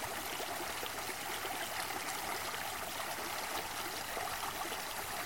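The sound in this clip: A stream flowing through green countryside, an even, continuous babble and hiss of running water with no breaks, moderately quiet and heard alone without voices.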